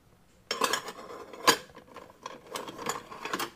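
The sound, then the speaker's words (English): Metal candy scoop for small sweets being handled in a candy shop gives a string of light clinks and rattles, with one sharper clank, at a moderate level and with no talk. “This is a scoop. So for really small candy.”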